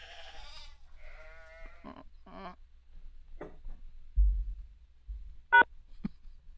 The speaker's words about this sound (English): You guys hold that sheep still, would you?